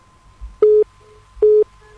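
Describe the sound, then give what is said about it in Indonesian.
Telephone ringing tone on a call-in line: two short, identical electronic beeps at a steady mid pitch, evenly spaced under a second apart, with nothing else over them. “Kita langsung menyapa untuk telepon yang saat ini sudah berdering.”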